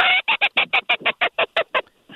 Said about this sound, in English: And there's the typical teal call, that high-pitched, fast staccato repetition.